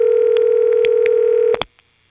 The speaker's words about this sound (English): ringtone being generated by what is essentially an old-fashioned ringing machine, but the tone frequencies used are the same as in modern ring.